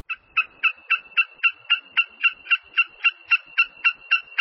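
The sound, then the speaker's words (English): Wilson's snipe calling from the ground or a low perch: many sharp, clipped notes repeated in an even, rapid rhythm at a steady high pitch, loud and alone. “Okay, that's a call of Wilson's snipe. They usually make it when they're standing on the ground or standing on a low perch.”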